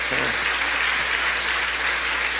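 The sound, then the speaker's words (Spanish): An audience applauds at a talk, a dense, loud wash of clapping that stays steady and sustained throughout. “¿Alguien puede dar un aplauso a Dios por su diseño?”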